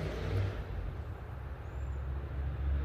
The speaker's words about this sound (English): It's pickup truck driving boys around here. So that's what you just heard in the background. Loud ass sound like a Chevy truck.